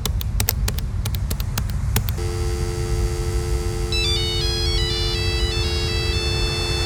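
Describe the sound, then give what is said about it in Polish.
A telephone call going unanswered: a quick series of sharp dialing clicks, then a steady electronic ring tone joined midway by a repeating high, bleeping ringtone melody, with no one picking up. “nasz gość specjalny z jakiegoś powodu nie chce odebrać telefonu. Może spróbujmy jeszcze raz.”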